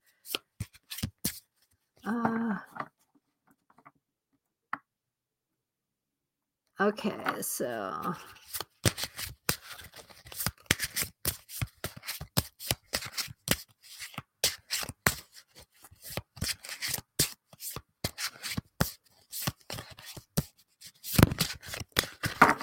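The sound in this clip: A deck of dragon oracle cards is shuffled and handled, giving many rapid papery flicks, riffles and taps in irregular bursts, with a few short stretches of talk between them.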